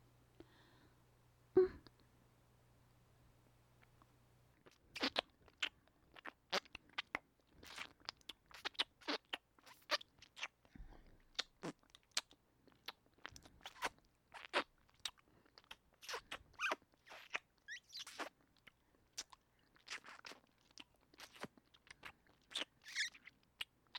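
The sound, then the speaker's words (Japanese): ASMR ear licking, with a tongue slowly tracing the surface of the ear: after a near-silent opening, many soft, wet clicks and smacks come in an irregular, close-up stream, mostly faint with occasional sharper bursts. “耳なめになります。まずはゆっくりと耳の表面を舌でなぞらせていただきますね。”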